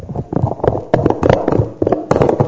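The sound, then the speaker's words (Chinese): A wireless microphone's plastic battery cover is twisted open with a quick series of small clicks, taps and scrapes in an uneven rhythm. “那么咱们接下来把这个电池盖再次的把它转开，走。”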